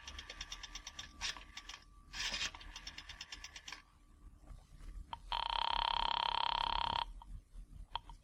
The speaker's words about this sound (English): I drove as far as the nearest drugstore, dropped a nickel in the slot, and dialed.